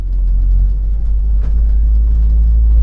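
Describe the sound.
Steady engine rumble inside the rear patient compartment of an ambulance as it drives off: a loud, continuous low drone with no voices or siren.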